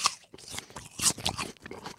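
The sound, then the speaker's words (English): Crisp crunches of biting into and chewing a Sweet Tango apple, a few sharp, bright crunch bursts separated by softer chewing sounds, heard alone without talk. “This episode is brought to you by Sweet Tango Apples. And you might think it's rude to crunch an apple while recording a podcast ad.”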